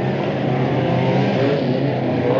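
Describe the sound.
A snowmobile engine drones as the machine drives through snowy woods on a trail of fluffy snow, a loud, unbroken motor roar that holds an even pitch throughout.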